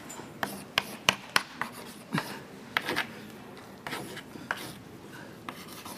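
Chalk or marker scratching on a board during a lecture as a formula is written out, with short faint scraping strokes and a few sharper taps in quick, uneven succession.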